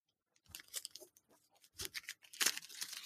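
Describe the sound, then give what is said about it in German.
A whisky-flavoured praline being unwrapped and eaten: irregular bursts of crinkling wrapper and crunchy tearing and chewing noises, quiet and alone, arriving in a few separate clusters. “ich würde die gleich essen. Ich würde sie jetzt verköstigen, um einfach das Erlebnis zu machen. Und dann lasse ich die Verpackung hier liegen, damit man das auf dem Bild sehen kann.”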